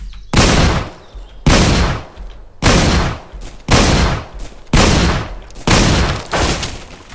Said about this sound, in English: Weapon shotguns. Winchester M. Let's load my shotgun here.